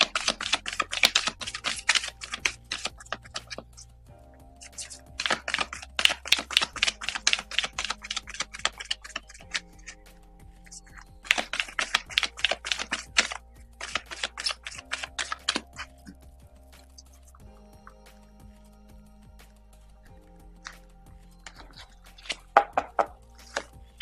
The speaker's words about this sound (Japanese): では、集中してカードをシャッフルいたします。